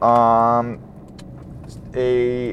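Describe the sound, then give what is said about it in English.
Steady low rumble of road noise inside a car being driven, with a sustained harmonic tone at the start and again near the end. “This is a little talk show that we have from my vehicle.”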